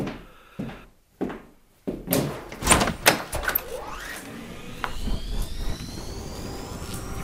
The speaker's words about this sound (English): A gust of air whirled round me as I opened the door.